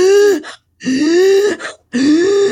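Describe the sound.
A voice imitates a panic attack with rapid, voiced gasping breaths: three loud, strained gasps separated by short pauses.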